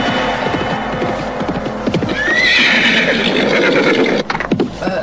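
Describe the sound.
A ridden horse whinnies loudly in the middle, a high, wavering neigh, with clip-clop hoofbeats before and after it over a low steady rumble.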